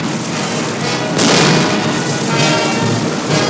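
Tank cannon fire and an explosion in a wartime battle scene, tanks firing on an enemy German tank. A dense, loud, rumbling roar fills the whole clip, swelling into a heavier blast about a third of the way in, with no talk.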